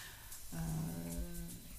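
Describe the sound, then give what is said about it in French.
A dog yawns with a drawn-out, whiny vocal tone lasting about a second, rising out of quiet and then trailing off softly. “On vient d'entendre Monsieur Buzz, voilà. Qui est le chien de Dominique Arthur qui baille”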